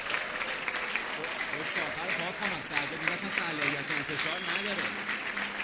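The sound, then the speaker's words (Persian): Applause for a birthday: steady, dense clapping from a group runs for several seconds, with voices talking or singing over it throughout. “تولدت مبارک عزیزم، یه دست بزنیم به افتخارش.”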